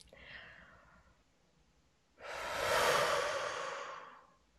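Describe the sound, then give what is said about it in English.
A long breath blown out through the mouth during a breathing exercise makes a broad, airy whoosh. It swells over about two seconds, then tapers away, after a softer breathy sound. “blow out through our mouth, making a whoozing sound to the count of 8.”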